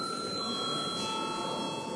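An electric chamber bell in the Latvian parliament rings before a vote: a steady, unbroken metallic ringing at an even level through the whole clip, with no voices.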